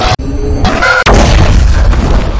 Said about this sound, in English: And then it explodes.